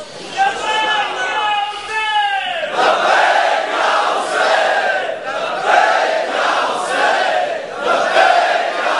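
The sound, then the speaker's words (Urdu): A large crowd chants a slogan in unison at a gathering. The repeated phrases are loud and rhythmic, rising and falling in steady waves throughout. “یہ جو آپ کا نعرہ ہے بہت خوبصورت نعرہ ہے”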